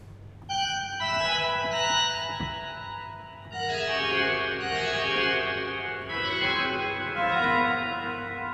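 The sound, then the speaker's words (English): Pipe organ mutation stops on the Cavaillé-Coll organ in Manchester Town Hall play bright, many-harmonic sustained chords. The music moves through a few phrases that swell and change, with no voices. “In Le Joie de la Grâce, movement 15, we hear lots of these fabulous mutation sounds like this.”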